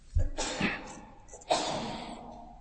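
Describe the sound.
A person sneezes: two abrupt, breathy nasal bursts separated by a short pause, each trailing off quickly.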